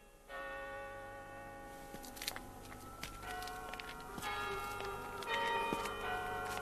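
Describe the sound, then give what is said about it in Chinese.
A clock tower bell chimes from the Customs House on Shanghai's Bund in the 1965 scene. Fairly faint, sustained ringing tones overlap and linger, with a few new strikes layered over the hum. “你们办公室离外滩很近吗？都可以听见海关的钟声了啊。”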